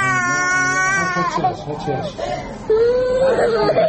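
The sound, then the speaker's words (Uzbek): An injured young girl cries in pain as a nurse stitches her head wound without painkillers in a Gaza hospital: loud, high, wavering wails that break into strained sobs and then rise again. “Hamshira yaralangan qizchaning bosh jarohatini og'irlantiruvchi vositalarsiz tikyapti. Bola og'riqqa dosh bera olmay yig'layapti.”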